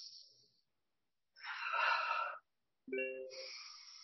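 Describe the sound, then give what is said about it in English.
Deep breaths drawn in through the nose with the head held over a bowl of steaming hot water: soft, airy rushes of breath, a few of them separated by short silent pauses. “and breathing in through the nose and breathing in through the lungs”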